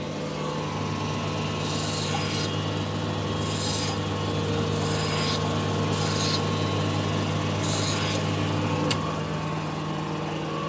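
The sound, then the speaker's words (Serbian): Grinding of an eyeglass lens, taking the sharp edges off its sides, over a steady machine hum, with several intermittent rasping bursts as the lens is pressed against the wheel. “Uradimo dve stvari prvo da mu oborimo malo ivice, da ne bude oštar ovde sa strane.”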